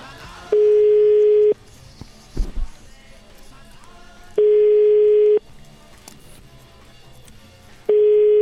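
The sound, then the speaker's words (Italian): Ringback tone on a phone line while calling a restaurant in Rome: three long, steady beeps of about a second each, separated by pauses of a few seconds filled with faint line noise. “Richiamiamo questo ristoratore del ristorante Archimede a Roma.”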